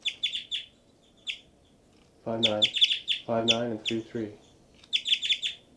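Two birds answer each other with bursts of rapid, high chirps at the start and the end. Lower, harsher calls with a rich, harmonic tone come in the middle.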